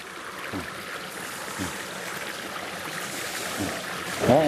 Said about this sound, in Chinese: 山林间有着很多小溪和清泉